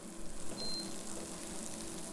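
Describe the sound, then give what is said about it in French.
Onions frying in a pan as the heat is raised to brown them lightly, a quiet, continuous sizzling hiss with no talking. “À mi-cuisson de, l'oignon, au bout de 10 minutes environ, on pousse un petit peu le feu pour faire dorer légèrement les oignons.”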